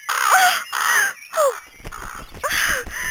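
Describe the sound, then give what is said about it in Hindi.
A crow caws in a series of harsh, rasping calls, a few loud bursts separated by short pauses, with no talk over them. “जाने दीजिए स्वामी, एक कौवा ही तो है।”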